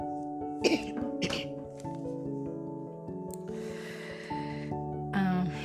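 Coughing and throat clearing from a person with an irritated throat after walking in strong wind: two short, harsh bursts early on, with fainter throat noises later, over a steady tonal background.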